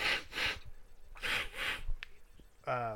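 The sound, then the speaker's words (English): Sharp nasal sniffs while using a nasal spray for sinus trouble, in two quick pairs, followed by a voice starting to speak at the end. “I do need to use a nasal spray.”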